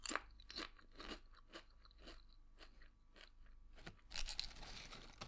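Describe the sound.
Crunchy snack being bitten and chewed while two people share it, heard as many faint, crisp crunches at an uneven pace, with a louder burst of crunching near the end and no talk.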